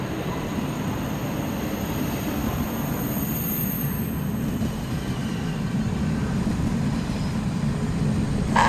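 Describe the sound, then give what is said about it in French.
TGV high-speed trains pull into a station platform with a loud, steady rumble and rolling noise that holds throughout and swells slightly at the very end. No voices are heard. “Les TGV numéro 8625 et 8025 vont entrer en gare, voie 1. Éloignez-vous de la bordure du quai.”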